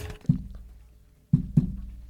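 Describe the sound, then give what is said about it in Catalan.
Fingers tapping on a microphone to spell out Morse code: four dull, low thumps, one alone, then a long pause, then three more in quick, uneven succession, with no voices. “Pum, pum, pum. Donar-li cops al micro és el menys radiofònic. Estic fent morse.”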